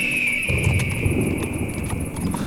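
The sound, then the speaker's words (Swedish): Hooves clip-clopping as horses are ridden, one carrying two riders: a steady, rhythmic clopping that runs throughout at an even level over a constant background, with no talk. “Orvar red för Jalar och jag satt bakom Jonathan på Grim.”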